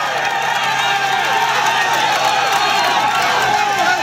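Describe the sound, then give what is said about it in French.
Roadside fans on a mountain climb cheering an Ecuadorian cyclist: a dense, continuous, loud roar of shouts and whoops, with many overlapping voices and clapping mixed in. “Et là, effectivement, il y a énormément de monde et ça encourage le coureur équatorien. Vous entendez peut-être le bruit derrière. On va monter l'ambiance tiens, pour que vous en profitiez.”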